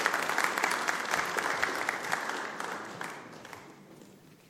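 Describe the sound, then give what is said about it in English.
Applause from an audience welcoming a speaker to the stage: dense, steady clapping that holds strong for a few seconds, then gradually thins and fades toward the end. “So can we put our hands together to welcome her warmly as she comes and shares with us for a moment.”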